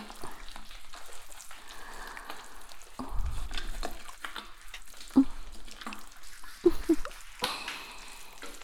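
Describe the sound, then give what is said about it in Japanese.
Soft foam squishes and crackles inside an ear during an ASMR ear wash, a continuous wet fizzing with scattered sharper pops and squelches, fairly faint and without talk. “ふわふわもこもこの泡で、お耳をくちゅくちゅっと、”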